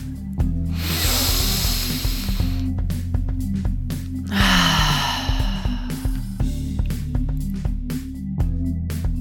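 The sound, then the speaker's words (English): A deep breath held and released through the mouth: two long, airy breath sounds separated by a pause, over steady soft background music. “holding the breath in for 2 counts and releasing through the mouth. Take deep breaths just like this throughout the scalp massage.”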